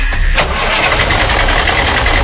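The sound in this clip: A car engine starts with a loud, steady mechanical rumble that runs the whole way through as it catches and turns over, with no voices present.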